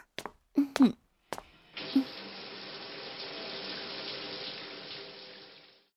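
Water running to fill a bath, a steady rushing, hissing flow lasting about four seconds before it fades out, preceded by a few short, sharp sounds.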